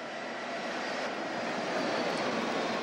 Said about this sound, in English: The Swiss Army had two fighter jets escorting the Pope's plane from Rome until it landed in Dublin.